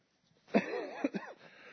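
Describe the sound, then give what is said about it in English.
A short burst of coughing from someone near the end of a cough, with a few rough, throaty bursts run together over about a second before it trails off. “Just getting over a little bit of a cough right on the tail end of it.”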